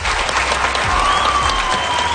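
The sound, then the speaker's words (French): An audience applauds four students after their questions at a wildlife education event, a loud, full round of clapping from a crowd that stays constant in level from start to finish. “On les applaudit.”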